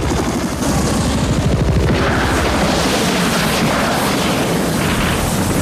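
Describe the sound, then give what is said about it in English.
Helicopters fire at a riverbank, setting off explosions: loud, rapid gunfire bursts pound rhythmically at first, then merge into dense, rumbling blasts that continue to the end. “As the choppers start firing at the riverbank, Erickson cowers from the explosions.”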